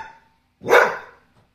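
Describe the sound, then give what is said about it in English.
A household dog gives a single sharp, loud bark that rises quickly and fades over about half a second, with silence around it and a faint trace of sound just before. “This is the kind of thing we deal with, you know, with this kind of noise. Regular barking.”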